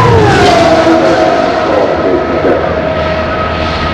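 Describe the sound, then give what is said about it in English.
A race car roars down the main straightaway of an oval track on the final lap at over 200 mph: a loud, steady high-revving engine drone whose pitch gradually falls as it passes. “Just down through the line once again. Off of four. He's on the main straightaway. Is Roberto Guerrero. The white flag flies.”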